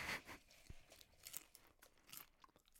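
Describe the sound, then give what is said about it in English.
Crunchy chewing and biting close to the microphone: several quiet, uneven crunches and crinkly bites with short pauses between them. No talk is heard over the eating. “For sure, don't eat in the mic.”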